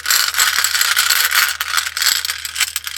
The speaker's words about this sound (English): let's get a lapis lazuli rune to close you guys out. I'm gonna mix them up a little bit. Sorry for the sound.